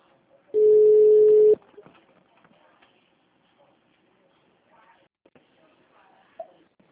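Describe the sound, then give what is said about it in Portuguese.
A phone signals an incoming call with a single steady electronic tone lasting about one second, followed by quiet, faint scattered rustling sounds. “Peraí, só um minutinho que entrou uma ligação aqui.”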